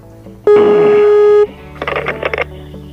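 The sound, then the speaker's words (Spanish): A telephone line signal on an international call: one loud, steady, even tone lasting about a second, followed after a short pause by a rapid cluster of noisy clicks and crackles. “Bueno, está sonando ya la señal telefónica. Atención, es una llamada internacional.”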